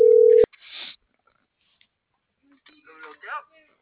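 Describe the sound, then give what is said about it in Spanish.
A short, loud, steady telephone tone while a number is dialed. It cuts off abruptly, and a person then speaks in brief phrases. “Estoy marcando.”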